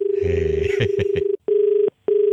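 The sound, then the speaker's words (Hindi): Ringing tone on a phone call: a steady mid-pitched tone runs throughout, with a voice talking over the first part. The tone is then briefly cut by two short gaps in a regular pulsing pattern. “Bell बजी है यार तुम्हारे यहाँ bell बजी तो मेरे यहाँ हो जाएगा”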